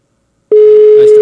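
A telephone connecting tone as a call comes through: after half a second of silence, a loud, steady single-pitched tone starts abruptly and holds to the end.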